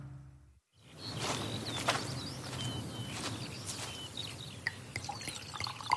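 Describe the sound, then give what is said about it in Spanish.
Sparkling Canarian mineral water pouring: a steady rushing trickle with scattered drips and tiny pops. It starts after a brief quiet moment and keeps going to the end. “Refréscate con Firgas, mi agüita de Firgas. Disfruta de un sabor único con sus burbujitas.”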